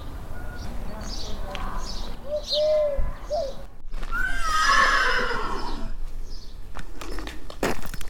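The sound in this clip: Horses neigh at a horse event, giving a couple of shrill whinnies. Pigeons coo, hooves clip-clop and people talk in the background.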